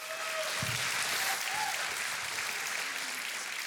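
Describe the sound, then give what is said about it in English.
Church audience applauding as the pastor is welcomed to the pulpit. The clapping is dense and continuous and stays at an even, full level from start to finish. “Hey, put your hands together one more time and welcome Pastor Eddie to the pulpit as he prepares to share the word.”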